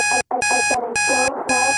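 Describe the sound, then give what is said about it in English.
An alarm clock goes off in four loud bursts of bright, rapid beeping separated by short gaps, while a song plays underneath, its lower music continuing through some of the pauses. “in the background, you can hear a song playing at the same time as an alarm going off.”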